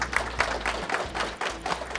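Faint audience applause welcoming a company president to the stage at an investor presentation for a real-estate investment fund, a light clatter of clapping in uneven bursts over a low hum.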